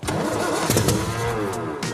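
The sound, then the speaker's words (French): A car engine cranks over after petrol is added to it, a loud, rough mechanical churning with several sharp bursts over a continuous low drone, heard alone without talk. “Allez, de l'essence, on va voir si ça démarre.”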